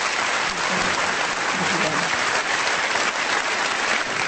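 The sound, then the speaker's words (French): Dense standing-ovation applause for a seven-time Olympic gymnastics champion at an award ceremony, a steady, even roar of many clapping hands that holds at the same loudness for the whole stretch. “c'est une ovation debout qui lui a été réservée.”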